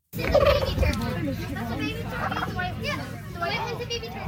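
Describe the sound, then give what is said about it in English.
A turkey gobbles at a poultry costume contest held at a museum country fair in Moore, Saskatchewan, amid steady crowd chatter and overlapping voices. “Chickens, ducks, and turkeys took part in a recent poultry costume contest as part of the Moore's Museum Country Fair.”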